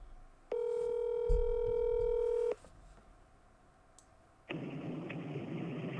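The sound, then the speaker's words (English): Telephone dialing tone as a call is placed: a loud, steady electronic tone holds for about two seconds and then cuts off. A quieter stretch follows, then a steady hiss with a faint ringing edge. “we're going to call Uncle Danny back”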